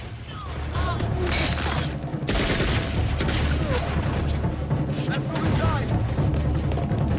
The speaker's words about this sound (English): The insurgents fire directly down into the passageway through a metal grating.